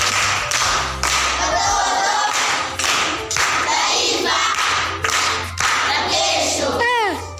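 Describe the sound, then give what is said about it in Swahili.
Dense, steady clapping fills the whole stretch as people applaud an uncle who correctly answered a riddle during a school riddle session, with a low steady tone running underneath. “Mjomba anatuambia jibu lake ni redio. Amepata. Makofi kwa mjomba.”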